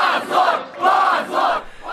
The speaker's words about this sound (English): On Telegram channels, I find videos of a dense crowd of mostly 20-somethings gathered outside the courthouse. They start chanting the word shame over and over in response to the court's decision.